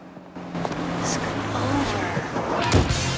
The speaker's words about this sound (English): The car whizzes past a sign that reads, "Welcome to Texas